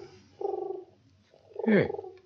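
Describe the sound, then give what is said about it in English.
A pigeon on a windowsill looking for food gives two low, throaty coos. The second is louder and slides downward in pitch. No voices are heard over the calls. “Pigeon on the windowsill. Yeah, it's looking for food.”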